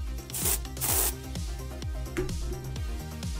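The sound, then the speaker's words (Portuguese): Deodorant being sprayed, heard as two short, bright hissing bursts close together over a steady, rhythmic low background. “Que isso, cara? Que barulho esquisito foi esse? Desodorante.”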